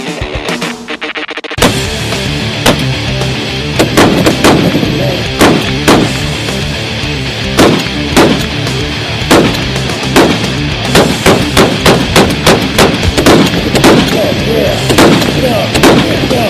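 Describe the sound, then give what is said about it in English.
U.S. Army issue tracer rounds are fired in many loud, sharp gunshots, cracking in an irregular string of single shots and quick clusters that runs for roughly fifteen seconds. “U.S. Army issue, won't be as spectacular as nighttime, but you want to shoot a couple of these? Absolutely. All right, we'll do that next. Never shot a tracer round.”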